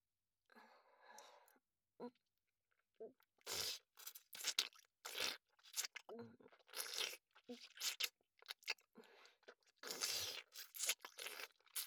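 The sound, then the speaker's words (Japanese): Soft cleaning sounds from a maid roleplay: crunchy scraping, rubbing and rustling in many irregular bursts that grow busier after the first few seconds. The sounds are quiet overall. “それではお掃除をさせていただきます。”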